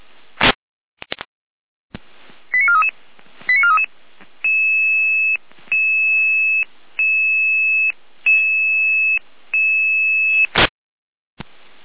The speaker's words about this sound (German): Hier Leitstelle Jena, Alarmruf.